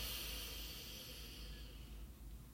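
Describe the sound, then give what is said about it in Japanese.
A slow, deep breath in during a guided relaxation breathing exercise: a soft, airy hiss drawn steadily for a couple of seconds, quiet and unbroken, easing off slightly toward the end. “笑顔でゆっくり吸い込みます。”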